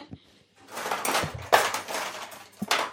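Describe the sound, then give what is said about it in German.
Rummaging in a kitchen to fetch a hand mixer: clattering knocks, scrapes and rattles of utensils and cupboards, with several sharper thumps among the shuffling. “Und hole gleich das Rührgerät. Dann kann Lars das da so schön langsam reinkippen.”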